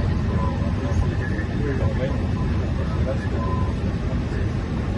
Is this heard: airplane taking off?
yes